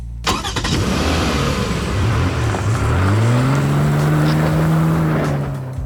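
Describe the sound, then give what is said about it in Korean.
A white car pulls up with its engine running. A loud, steady mid-pitched hum climbs in pitch as it revs, then holds level to the end. “내 앞에 하얀 자동차를 끌고 나타났다.”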